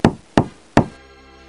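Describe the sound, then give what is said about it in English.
Three sharp knocks on the door of a room beside a hockey team's dressing room, loud and evenly spaced, each with a quick decay, and no voices. “Knock on the door of the room next to it.”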